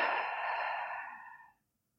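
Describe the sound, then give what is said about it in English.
A deep breath, taken seated at the start of a guided relaxation: one long, loud, breathy rush of air that holds steady, then tapers and stops after about a second and a half, with no talk. “Take a deeper breath in and complete exhale.”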